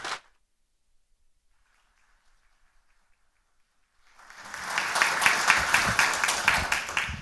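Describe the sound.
Applause from a church audience welcoming a guest speaker to the front. After a brief sound at the start and a near-silent stretch, dense clapping begins at about four seconds, swells quickly and carries on steadily to the end.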